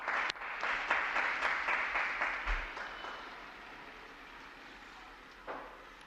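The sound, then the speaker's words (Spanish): Crowd applause for a newly canonized Argentine saint: dense, steady clapping for the first few seconds that thins and fades, with a brief swell of claps near the end. “Tenemos que aplaudir esa santa, esa nueva santa.”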